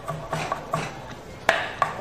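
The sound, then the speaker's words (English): Onions flung into a bowl, heard as a few soft, dull knocks and taps at irregular intervals. The last two hits are slightly sharper and louder than the earlier ones, and there is no talk. “flings some onions into a bowl”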